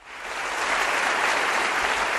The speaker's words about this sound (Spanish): Con esta ovación cerrada y extensa han recibido las medallas de oro del Senado Juan Jesús Vivas y Juan José Imbroda.